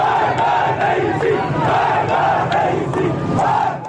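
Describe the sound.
A protest crowd in Iran chants slogans against Ebrahim Raisi, many voices shouting in a loud, steady, repeating rhythm with each phrase rising and falling in unison.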